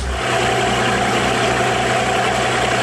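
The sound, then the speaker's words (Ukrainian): The engine of a 34-foot, roughly 11-metre American Sea Ark motorboat idles with a steady, loud, low drone and a faint rhythmic throb underneath, with no voices. “Цей катер набирає майже 60 км за годину швидкість.”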